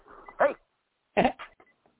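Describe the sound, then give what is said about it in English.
A few short, sharp yaps from a small chihuahua, fired off in two quick bursts with a gap of silence between them. “He's got the angry dog. It's a little chihuahua. It never shuts up.”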